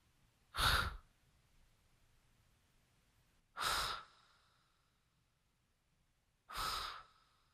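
Heavy, raspy breathing in a dark, damp garage: three separate loud huffs, evenly spaced about three seconds apart, each standing alone against near silence.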